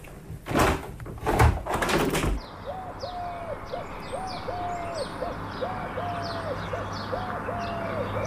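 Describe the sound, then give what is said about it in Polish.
Blackbirds and sparrows sing in the distance outdoors, heard after a few loud bumps at the start: repeated even, warbling phrases recur steadily, with faint high chirps above them. “Już zrobiło się pięknie. Kosy w oddali, wróble.”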